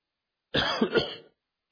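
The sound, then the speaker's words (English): A person coughs into a just-switched-on microphone: one brief, raspy burst lasting under a second, heard alone with no talk around it. “I turned it on and coughed and turned it off and tried to talk.”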